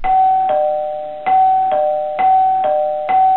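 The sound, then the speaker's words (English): A doorbell rings with a two-tone chime, about seven bright strikes alternating between a higher and a lower note. Each strike rings out and decays before the next, and the pattern repeats steadily with nothing else heard. “221B, Baker Street, when there was a knock at the door, followed by the doorbell ringing”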